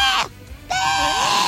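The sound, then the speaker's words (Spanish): A voice imitating a crazy goat's scream: a short strained cry, a pause, then a longer, loud, wavering bleat-like yell. “Imagínate un grito como el de la cabra loca.”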